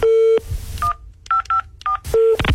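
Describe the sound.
Electronic telephone tones on a line after a call is hung up: a steady beep, then four short dual-pitch beeps in an uneven rhythm, then another steady beep, all loud and without talk.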